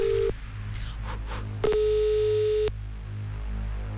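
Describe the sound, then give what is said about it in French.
Telephone line tones as a random number is dialed: a short low beep, then after a pause a longer, louder, buzzy tone over a steady low hum. “Là, on compose un numéro au hasard, vraiment, et on regarde qui décroche.”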